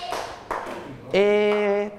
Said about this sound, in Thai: อ้าวปรบมือให้ต่างๆอีกครั้งหนึ่ง